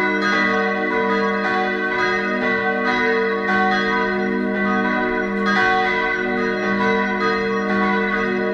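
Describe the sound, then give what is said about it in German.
Steel church bells cast in 1949 ring from a village church in Weistrop, west of Dresden, in a loud, dense peal of overlapping strikes whose long metallic tones sustain and blend continuously, with no voices. “Die Glocken, die ihr hier hört, stammen von 1949. Sie sind aus Stahl gegossen”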